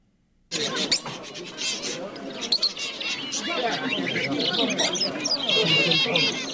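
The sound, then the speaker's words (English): Many caged birds, including finches, canaries, roosters and parrots, chirp and chatter at a Sunday outdoor bird market in Paris. The dense, continuous twittering starts abruptly after a brief silence and grows busier, with people's voices mixed in. “That's the bird market in Paris. What is typically just an outdoor flower market, on Sundays it's transformed into a one-stop shop for birds of all shapes and sizes, finches, canaries, roosters, parrots,”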